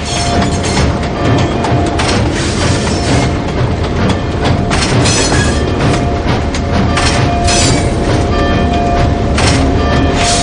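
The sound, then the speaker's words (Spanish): Steady, loud rumble and clatter of a train as a steam locomotive slows toward a station stop, with dense wheel and track noise and a thin sustained tone running through it, no voices. “La locomotora se desliza lentamente aminorando la velocidad.”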